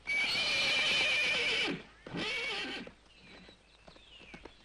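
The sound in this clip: A horse whinnies loudly twice, a long neigh and then a shorter one. Softer hoof clip-clops and small knocks trail off afterward.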